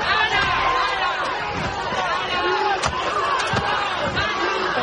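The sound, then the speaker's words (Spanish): Protesters shout during a strike sit-in of about 300 people at the chemistry faculty of Madrid's Complutense University. Massed voices chant and yell in overlapping bursts, with a few sharp knocks among the crowd noise. “Esta noche unas 300 personas se han encerrado en la Complutense y allí está ahora mismo nuestra compañera Andrea Muñoz. ¿Qué tal, Andrea? Buenos días. Buenos días. Este es el sonido que se vive aquí ahora mismo en la Facultad de Química.”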